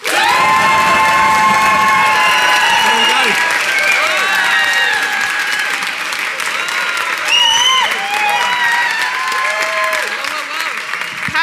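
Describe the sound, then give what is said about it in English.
Studio audience on a comedy panel show clapping and cheering to vote for the best case: loud, dense applause runs for about eleven seconds, with whoops and shouting voices rising above it. “If you think Phil and Ben, and therefore Peter, had the best case, applaud now.”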